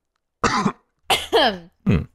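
Coughing and throat clearing from someone with something stuck in the throat. Four rough, raspy bursts come in quick succession, some with a strained vocal edge, separated by short silences.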